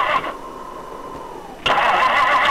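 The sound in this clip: A car engine with a frozen gas line cranks. A thin whine fades at first, then a sudden loud, rough, rumbling burst takes over and holds steady to the end, with no voices.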